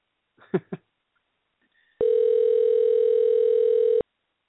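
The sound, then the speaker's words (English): A steady telephone dial tone sounds for about two seconds while someone dials out on a call. It plays alone at an even loudness and is preceded by a couple of brief, faint short sounds. “But I'm going to try this dialing out thing.”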